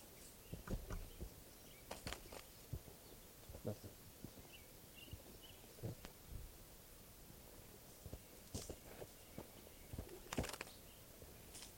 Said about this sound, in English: Seems that 577 wants to call only when I walk over there by him, so I'm walking towards him right now.